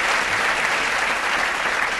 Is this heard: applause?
yes